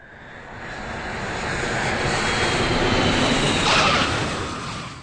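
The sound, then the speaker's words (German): An airplane lands after a two-hour flight, its engines a broad, continuous roar that swells gradually to a peak near the end and then eases slightly. “Nach 2 Stunden Flug, die lang ersehnte Landung.”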